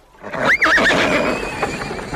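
A gelding horse neighs once, a loud, high, wavering whinny that quickly tails off into a quieter rumbling background.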